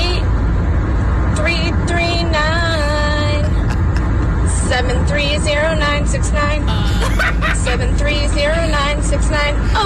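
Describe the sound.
A car driving with its window down, steady low road and wind rumble running throughout under a wavering, pitch-shifting voice that hums or sings without clear words.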